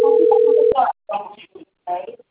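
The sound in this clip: A mobile phone ringing: a single steady electronic tone sounds for under a second, overlapped by voices, and then people talk alone.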